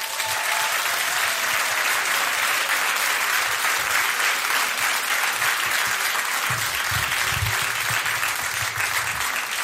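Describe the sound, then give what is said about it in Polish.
Applause from a concert audience, a dense, steady wash of many hands clapping that holds at an even, loud level for the whole stretch. “Andrzej Smolik, brawa dla niego!”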